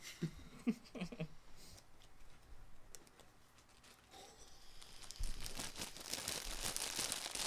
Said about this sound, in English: You hear that? That's the sound of chicken ramen, maybe.